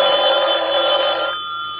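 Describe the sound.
A telephone bell rings loudly in one continuous, buzzing burst that thins out near the end, with no voices.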